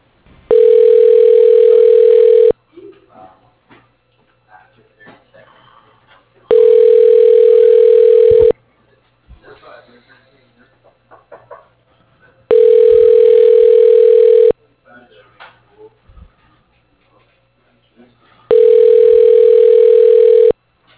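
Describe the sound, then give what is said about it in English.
A telephone ringback tone plays while a call is transferred to voicemail: four long, steady, mid-pitched tones of about two seconds each, separated by regular quiet gaps with faint background noise. “I can put you through to his voicemail.”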